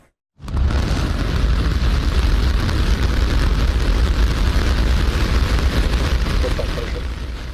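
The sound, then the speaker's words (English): A SpaceX Starship V3 rocket launches from a Texas pad as all 33 engines ignite. After a brief silence a dense, roaring rumble bursts in and holds steady and loud to the end. “A Starship V3 rocket from SpaceX launched successfully on Saturday from Texas. All 33 engines lit up perfectly on the pad.”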